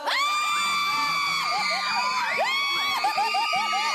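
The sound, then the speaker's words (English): Frightened children screaming inside a house: many overlapping high shrieks and wailing cries at full loudness throughout, over a dense, crowd-like wash of voices. “Legitimate screams of children who are absolutely frightened.”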